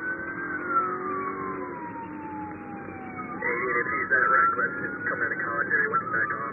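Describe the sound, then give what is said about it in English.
Police sirens during a car chase, one tone wailing in a long slow downward sweep before switching to a rapid, warbling yelp, with people talking over the sirens. “You can hear other police sirens off camera.”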